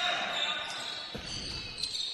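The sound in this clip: Basketball being dribbled during a Galesburg versus Rantoul game, a few dull bounces over steady background noise.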